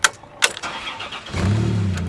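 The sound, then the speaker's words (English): The engine of a big white refurbished ice cream truck, once a mail truck, starts with a couple of sharp clicks and knocks, then settles into a steady, low, continuous rumble. “we're riding around in it, and it's a refurbished ice cream truck”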